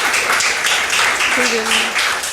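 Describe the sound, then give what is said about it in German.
Applause from an audience after a conference talk about community networking: steady, dense clapping with a brief voice heard partway through. “Bitte einen großen Applaus”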